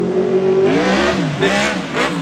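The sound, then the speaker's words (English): A homemade, hand-built race vehicle powered by a tiller motor revs its engine. A steady buzzing drone dips and then swells in a couple of loud revs. “So my mom bought me a tiller motor when I was nine and this is what slowly graduated from this.”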